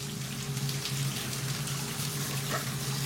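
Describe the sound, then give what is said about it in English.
Shower water runs in a steady, full spray while a man scrubs his armpit with a brush, a constant watery rush over a faint low hum, with no speech. “Showering, Will scrubs at his armpit with a brush.”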